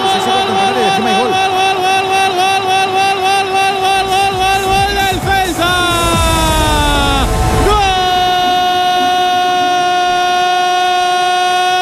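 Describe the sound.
A running train sounds its horn in loud, sustained tones. Midway the pitch slides down sharply, then settles into a steady tone again.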